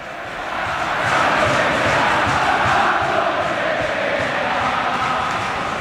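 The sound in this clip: A football crowd at Valencia's stadium chants a home player's name in stoppage time. It is a dense, sustained roar of many voices with a loose rhythmic pulse, swelling after the first second and staying loud.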